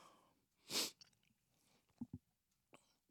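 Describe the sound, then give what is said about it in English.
A person sneezes once, a single loud, sharp burst of breath, followed by a few faint, soft noises. “And I'm about to sneeze. Pardon me.”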